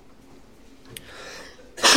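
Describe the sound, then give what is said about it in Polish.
A single loud cough from a preacher with an allergy-irritated throat during a church service, a sharp burst at the very end after near silence and a brief faint rustle. “Przepraszam, jakieś problemy alergiczne, więc trochę z gardłem mogę kaszleć.”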